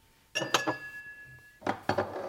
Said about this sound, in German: So, jetzt brauchen wir noch Gläser.